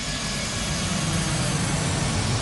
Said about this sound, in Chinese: 随着巨大的噪音和震动，这架客机开始在9号跑道上狂奔，随即离开地面，准备直冲云霄。